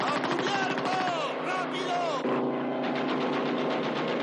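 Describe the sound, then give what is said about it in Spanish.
An aircraft strafing people with gunfire in the 1970 war film Kelly's Heroes: a rapid, continuous rattle of shots under a droning, tonal roar, staying loud throughout. “De nuevo, el avión regresa a la zona y vuelve a cargar contra ellos.”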